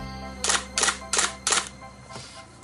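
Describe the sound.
A camera takes photos with four crisp shutter clicks at an even pace, followed by a fainter fifth click, over a low background hum.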